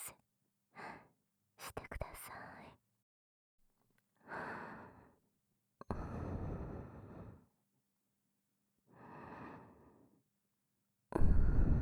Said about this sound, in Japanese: はい、深呼吸。